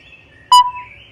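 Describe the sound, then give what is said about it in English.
A single sharp chirp from baby birds in a nest in a tree, brief, bright and high-pitched, rising out of a quiet background where faint low tones linger. “Look, what is it? It's a nest. Listen, what is it? Baby birds.”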